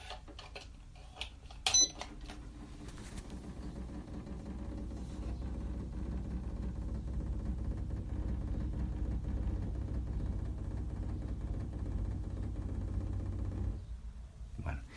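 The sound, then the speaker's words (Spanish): An electric appliance running a self-test of its motor just after being connected: a sharp click, then a quiet, steady low hum that holds for about twelve seconds before cutting off. “Bueno, sin más dilaciones, lo voy a conectar al aparato.”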